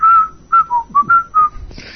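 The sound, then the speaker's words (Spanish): Whistled tune like the one at the end of a song: six short, clear, melodic notes, loud and alone, followed by a brief soft hiss. “la vida de Brian, que lo silbaban al final de la canción”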